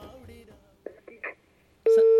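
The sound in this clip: A telephone tone sounds after a dropped call: one loud, steady beep at the very end, following a few faint muffled sounds and a brief voice.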